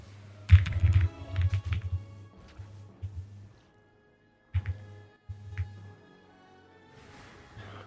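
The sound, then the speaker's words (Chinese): Typing on a computer keyboard in quick bursts of soft clacks, with a clear pause partway through before a few more keystrokes; faint overall. “我键盘响吗？还好吧。”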